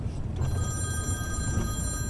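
Telephone ringing with a steady, high electronic trill that runs through the whole clip over a low background rumble, with no voices.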